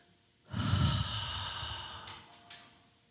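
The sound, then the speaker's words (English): Deep breathing during a guided meditation: one long, breathy exhale that swells quickly and then slowly fades, followed by a couple of short, faint breathy sounds near the end. “Let us breathe into the room and take this loving vibration from the room.”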